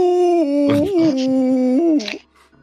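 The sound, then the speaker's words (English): A person imitates an overly dramatic husky howl with their voice: one sustained, whiny, wavering tone lasting about two seconds, loud and alone, then breaking off abruptly. “He just like does overly dramatic husky howling and like rolling around on the ground like no, like a 2-year-old or something.”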